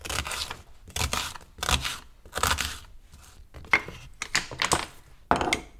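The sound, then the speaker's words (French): A knife cuts a peeled red onion into pieces for a jar, making many separate crisp chopping strokes at an uneven rhythm on a board. “on va avoir besoin d'un oignon rouge qu'on va aussi éplucher et couper en morceaux. Et qu'on va rajouter dans le bocal avec le radis noir.”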